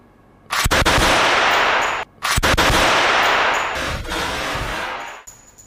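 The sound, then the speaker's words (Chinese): Two loud blasts from a prop gun that ignites released compressed gas when the trigger is pulled, each sharp crack followed by a long roaring wash of noise that slowly fades. “我们在里面然后有一个点火装置，然后扣动扳机的时候释放气体，那个会引燃这个气体。”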